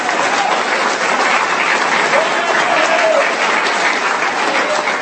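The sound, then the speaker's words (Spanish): An audience applauds at an evangelical church service. The clapping is dense and loud, and it holds evenly with no break from start to finish. “Aplauda si va a hacerlo, ya hágalo bien.”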